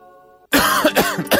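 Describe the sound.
Harsh, loud coughing, as in a cough-syrup advertisement, comes alone in a quick run of several rough bursts. It follows a brief, faint steady tone.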